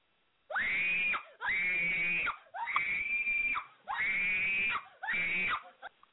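A man screams excitedly while hooking a stingray at Mosquito Lagoon, letting out five long, loud, high-pitched yells separated by short gaps, with a brief trailing cry at the end.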